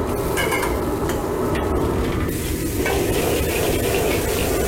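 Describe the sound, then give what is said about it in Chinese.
Red chilli and diced onion stir-fry in a wok with a loud, steady sizzle that runs unbroken throughout, with no talk. “料头炒香之后加入切好的红辣椒和洋葱粒”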